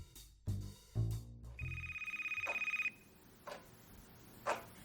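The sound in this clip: A telephone bell rings faintly in one rapid, trilling burst lasting just over a second. A couple of dull thuds come before it, and a few soft clicks follow.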